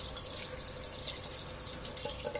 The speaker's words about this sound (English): I'm gonna put a can of water in for my tomato sauce. Let's fill that up with water